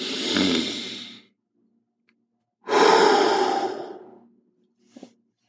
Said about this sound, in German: atme mal einmal ganz, ganz tief ein. Und wieder aus. Am besten durch Mund ausatmen. Nase ein, Mund aus.